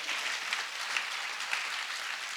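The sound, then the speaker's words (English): A church audience claps during a sermon, praising Jesus. The clapping is an even, continuous patter at a fairly soft level, with a few slightly sharper claps standing out. “Clap for Jesus. Hallelujah.”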